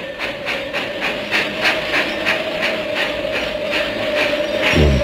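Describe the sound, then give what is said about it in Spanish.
A train arrives at a railway station on a snowy winter day, with a steady rhythmic clatter over a constant hum and a low thud near the end. “Un único pasajero se apeó del tren en la estación de ferrocarril de Bramberhart.”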